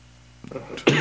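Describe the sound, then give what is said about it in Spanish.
A man still recovering from illness coughs painfully: a soft throaty rasp, then one loud, harsh cough burst. “Me duele cada vez que toso.”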